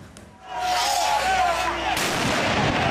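Fireworks going off at a street anti-corruption protest in Tirana amid clashes with police, a loud, dense roar of blasts that surges in after a brief quieter start and stays sustained to the end.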